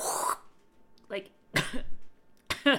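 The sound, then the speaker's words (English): A woman coughs a few times in short, rough, breathy bursts, separated by brief pauses. “It's in my throat. That's why I'm coughing.”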